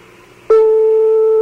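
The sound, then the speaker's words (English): A telephone rings in Tehran, Iran. A faint hum breaks into one loud, steady, single-pitched ringback tone that lasts about a second. “That's a phone ring in Iran, isn't it? Yep, it is. A phone is ringing in Tehran right now.”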